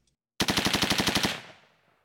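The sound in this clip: A rapid burst of gunfire from a radio drama execution scene: about a dozen sharp, evenly spaced shots rattle out loudly in under a second, then the sound trails away in a fading echo.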